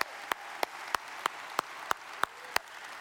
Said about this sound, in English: Would you celebrate and thank your dad? All the dads in the room. Come on, let's give it up.